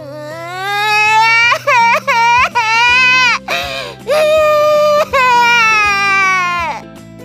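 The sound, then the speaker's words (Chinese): A young child cries as a story sound effect: loud, high wailing broken into several short sobbing bursts, then longer drawn-out wails. “突然哭了起来。”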